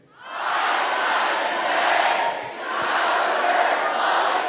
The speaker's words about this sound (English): So maybe just something like, "Hi, Simon Pegg, Chicago nerds love you," or something like that. One, two, three.